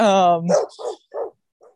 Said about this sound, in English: Now the dogs are barking at me.